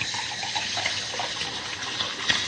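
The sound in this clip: Water pours steadily into a glass to top up a drink, a continuous, moderately loud splashing gush with no pause.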